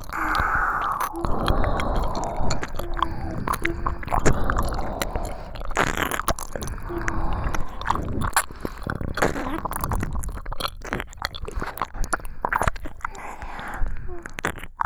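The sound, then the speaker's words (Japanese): Close, wet ASMR mouth sounds of two performers licking ears: moist smacks, slurps and soft clicks repeat throughout, with faint whispering now and then. “二人がかってお耳舐められる。”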